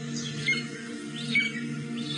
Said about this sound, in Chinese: 这是朱鹮的声音